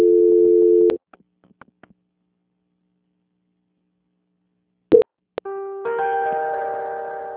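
A telephone call is put on hold and transferred: a steady electronic tone cuts off into near silence with a few faint clicks. Then come sharp clicks, another steady tone and a fuller, multi-note tone that runs to the end.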